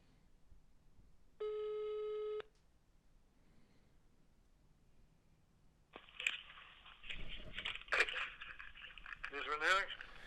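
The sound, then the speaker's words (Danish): A single ringback tone of an outgoing telephone call sounds as a steady, buzzy tone lasting about a second, followed by quiet and then voices talking. “Det eneste, jeg kan komme på, er at ringe til den pensionerede kriminalassistent, Svend”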